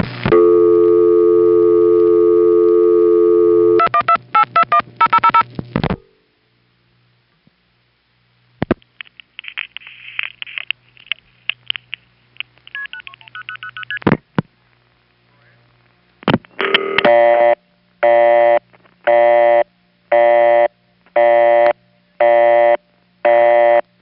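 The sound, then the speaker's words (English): Telephone exchange line signals on a call dialing four zeros and rerouted through a tandem office: a steady buzzing tone, a run of rapid revertive pulse clicks and buzzy bursts, then a series of regular tone bursts. “We're dialing 0000 as the last four digits, which means the revertive pulse part is very fast.”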